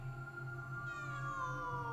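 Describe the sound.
A cat meowing in a long, drawn-out, harmonic-rich cry that shifts pitch partway through. It is fairly faint and heard alone without voices.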